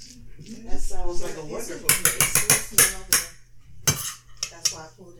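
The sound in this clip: Sheet pans, dishes and cutlery clank and rattle in a busy kitchen. A voice speaks first, then a quick burst of bright metallic clatters follows, and a few scattered knocks and clinks end it.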